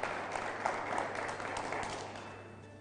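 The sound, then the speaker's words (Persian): Clapping in honor of a team after its decisive win against the United States, a dense, steady patter of many claps that holds fairly loud throughout, then eases slightly toward the end. “ما باز هم مثل پریروزمون به افتخارشون فقط میتونیم دست بزنیم، ازشون تشکر کنیم”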